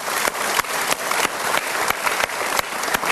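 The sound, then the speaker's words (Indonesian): Steady audience applause during a talk show, with thick, even clapping carrying throughout and a few sharper claps standing out. “Super sekali. Kita berikan tepuk tangan.”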